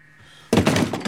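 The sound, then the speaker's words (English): A gunshot is fired in a film scene. A low hum is followed by a sudden, loud bang that bursts in and keeps ringing as a sustained, rough noise to the end. “James shoots him dead.”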